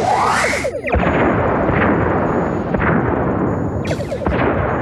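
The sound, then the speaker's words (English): Photon torpedoes fire at enemy warbird ships: a dense, sustained booming roar, with hissing whooshes of launch near the start and again near the end. “Fire on all enemy ships. One photon each should do. Let's not waste ammunition. Target locked and acquired on all warbirds. Firing.”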